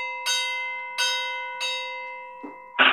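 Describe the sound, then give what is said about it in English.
A bell used as a trap drummer's church-bell sound effect is struck three times at an even pace, each strike ringing out with a bright, sustained, slowly fading tone, followed by a couple of short knocks at the end. “So another ringing sound would be like bells, like church bells,”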